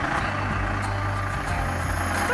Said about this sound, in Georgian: ეს ავტოსადგურია, ეს კი ჩემი ავტობუსი.